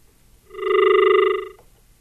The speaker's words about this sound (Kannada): ಆಗಲೇ ಕರೆಗಳು ಬರೋದಕ್ಕೆ ಪ್ರಾರಂಭ ಆಗಿದೆ. ನೋಡೋಣ ಮೊದಲ ಕರೆ ಯಾರ್ದು ಅಂತ.